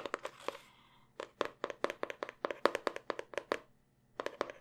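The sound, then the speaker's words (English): Hands handle an empty box, making a quick run of many sharp taps and crinkling knocks in irregular bursts, then a short pause before a few more. “Oh, I mean, yeah, there was something in it, but I took it out. And now it's just this empty box.”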